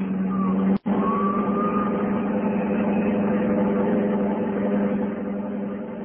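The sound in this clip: A car engine roars as the car drives away fast, a steady, loud low drone with a faint whine that climbs slightly early on. The sound cuts out for a split second near the start.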